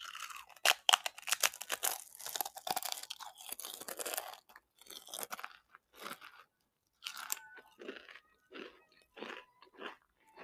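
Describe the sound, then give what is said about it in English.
Crunching of two chips eaten at the same time: many quiet, crisp chewing crunches in irregular bursts, with short pauses between bites and no talking. “Okay, now I'm gonna eat two chips at the same time.”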